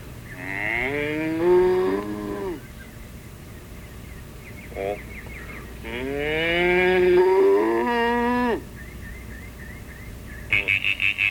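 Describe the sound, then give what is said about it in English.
Mooing from a cow, with two long, loud, drawn-out moos separated by a quieter gap and a steady low background hum beneath. “Cow. Yep. Cow.”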